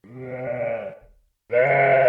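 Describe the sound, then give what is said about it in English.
Sheep bleat during a spring migration across Idaho: two long, wavering calls, the first about a second long and fading, then a short silence before a second, louder bleat. “It's spring, and the sheep are on the move.”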